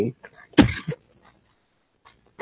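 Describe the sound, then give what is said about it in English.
A person coughs: one sharp, harsh burst, then a shorter catch right after, with a few faint vocal sounds just before and near silence afterward. “I'm passing my cough on to you through the virtual airwaves.”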